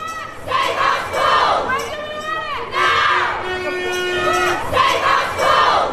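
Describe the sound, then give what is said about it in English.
Crowd chanting at a protest at the Senedd in Wales over 400 planned job cuts at Cardiff University, with many voices shouting in loud repeated rhythmic phrases. “That was the sound of a protest in Wales at the Senedd today over the 400 planned job cuts at the University of Cardiff.”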